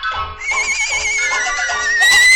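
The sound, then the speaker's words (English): A human voice imitates a horse's whinny, a quavering, high-pitched neigh of about two seconds that climbs higher and grows louder at the end. “And the horse said,”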